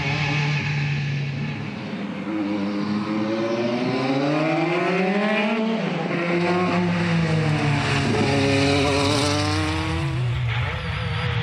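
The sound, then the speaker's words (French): A car accelerates hard while its tyres are warmed up. The power comes in violently and it slides sideways. The engine note climbs and drops in loud, repeated sweeps, with rough tyre scrubbing under the strained, continuous roar. “Bien faire chauffer les pneus. Et là, parce que la puissance, elle arrive assez violemment. C'est pour ça que j'ai fait un petit travers.”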